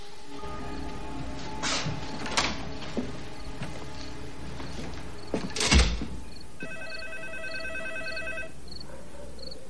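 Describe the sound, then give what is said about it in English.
A telephone rings with a repeating, trilling electronic tone in the latter half. Before it come a few scattered knocks and one heavier thump. “Later, Annie's sitting on her bed, deliberating whether or not to answer the phone.”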